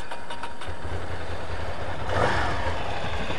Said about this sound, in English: So start up the bike here.